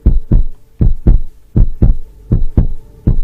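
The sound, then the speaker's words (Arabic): Heartbeat sound effect in a radio horror story: five loud, deep lub-dub double thumps in a slow, steady rhythm, heard alone with no voices. “صمت مفيش صوت، مش سامع اي حاجة غير دقات قلبي في وسط الضلمة،”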